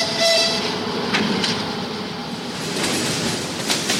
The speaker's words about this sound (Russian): Подошла электричка, забитая дачниками и вещами.